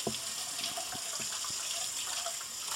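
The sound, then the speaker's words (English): Steady rush of tap water from a sink faucet as hands are washed during cheesecake muffin baking, a continuous even hiss with a few faint knocks and no talk. “now I have to wash my hands”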